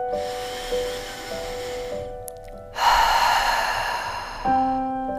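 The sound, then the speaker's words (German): A slow, deep breath in and out during a meditation, with an airy inhale followed by a longer, louder, breathy exhale, set over soft, sustained, calm music tones. “Nimm einmal einen tiefen Atemzug Einmal ein und dann aus.”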